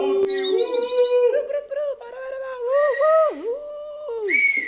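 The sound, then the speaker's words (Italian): A person whistles a sliding, melodic tune in sustained tones that bend and dip in pitch, with a brief break before a final rising note, loud and clear with no talk over it. “Se lo fa la nenia questo fischio ci manda tutti a letto.”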